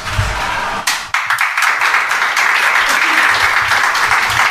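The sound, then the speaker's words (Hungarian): Audience applause at the end of a spoken discussion: dense, loud clapping that swells in abruptly and continues steadily to the end. “Tudtam, hogy taps lesz a vége.”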